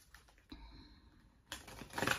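A deck of cards being shuffled, with soft, clicky flutters at a low level early on, then a louder, dense riffling flurry of card edges toward the end.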